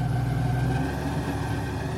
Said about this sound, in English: We're in a small airboat racing across the marshes over clumps of jagged sawgrass and around stands of cypress.